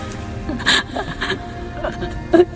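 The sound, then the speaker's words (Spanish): A child whimpers and cries softly in a few short, broken, high-pitched sobs that sit low against a steady, noisy background, with no clear words spoken. “No llores, no llores de nuevo.”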